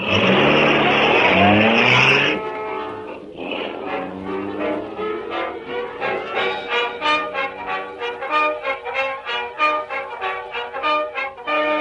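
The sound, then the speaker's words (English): A car starts off and drives away. A loud, rough roar opens, then settles into a steady engine drone with a rhythmic, pulsing beat that carries through to the end. “Car's in perfect shape, Cato. Ready to go, Mr. Red. You take the wheel, Cato. Let's see how soon you can get us to the old factory.”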